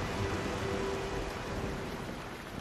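Steady rain pours down in a continuous, even wash of hiss with no breaks or distinct drops standing out, holding at the same level throughout.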